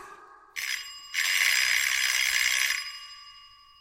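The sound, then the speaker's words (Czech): A doorbell ringing in a building hallway, a bright, metallic electric ring that sounds briefly, breaks off for an instant, then rings steadily for longer before fading out. “Neboj a zazvoň, ať nestrávíme život na chodbě domů.”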